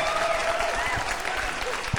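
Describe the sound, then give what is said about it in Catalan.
Audience applause from a crowd, a dense, steady wash of clapping that fills the whole moment without pause, with a voice faintly audible over it. “Un aplaudiment per la Sera d'Ubagos.”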